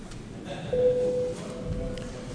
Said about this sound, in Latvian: Lūdzu zvanu.